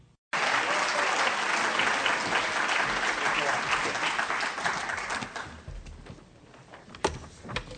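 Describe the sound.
An audience at a library event applauds to welcome a speaker: dense, loud clapping that holds steady for about five seconds, then thins out into a few scattered claps.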